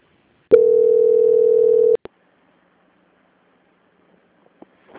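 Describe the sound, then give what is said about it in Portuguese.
Steady telephone tone as a call is put on hold for transfer: a single loud, even mid-pitched tone of about one and a half seconds, cut off by two sharp clicks, then near silence with a few faint ticks. “peço que aguarde em linha que eu vou transferir o contato para o controle de qualidade que dará continuidade à sua contratação”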